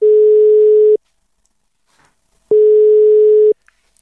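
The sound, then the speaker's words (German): Ringback tone of an outgoing telephone call: two loud, steady, single-pitched beeps, each about a second long, separated by a pause of roughly a second and a half of near silence. “und ich habe ganz einfach Gerd Hillmann angerufen. Hören wir mal rein in das Gespräch.”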